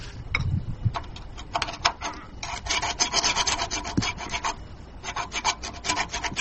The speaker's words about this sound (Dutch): Er wordt echt dat roest mee afgekrabd eigenlijk, hè? Ja, het is gewoon mechanisch krabben, borstelen, schuren, net zolang tot het weer glimt.